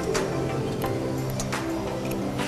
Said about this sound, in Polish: Grzechotka.